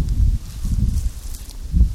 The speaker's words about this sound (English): The wind's picking up.